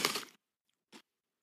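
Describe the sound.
Crunching and chewing of After Eight chocolate mints: a longer crisp burst of crunching, then a brief second crunch after a short silence, both faint.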